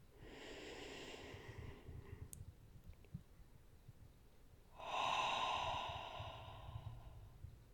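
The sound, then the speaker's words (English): Two slow, deep breaths, each a long airy rush lasting a couple of seconds, the second louder, separated by a quiet pause with a few faint clicks. “Okay, another deep breath.”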